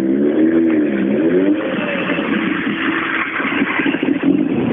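A competition car's engine drives forward and accelerates on a slippery course, running on used budget tyres at the start of a race. The engine drone is loud and continuous, its pitch wavering up and down, with no talk.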